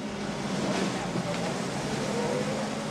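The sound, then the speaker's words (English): A car pulls out onto a quiet road and drives off along the street, heard as a continuous, even engine and road rumble with a broad hiss that stays at a steady level throughout. “car pulls out into the quiet road and drives off along the street.”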